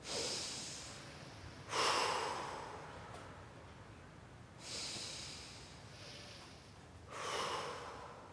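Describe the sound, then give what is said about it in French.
Several people breathe together during a guided sophrology walk, drawing air in through the nose and blowing it out through the mouth. Three soft, airy exhalations rise and fade at an unhurried pace, with no talk. “Donc je vais vous demander d'inspirer par le nez et de souffler par la bouche. On va faire ça tous ensemble.”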